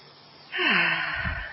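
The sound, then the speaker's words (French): A long, deep breath is drawn in during a guided self-acceptance exercise, rising suddenly and holding as a steady, airy rush. “Je vais vous proposer de prendre une grande inspiration”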